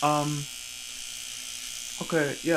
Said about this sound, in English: I'll explain why I'm shaving.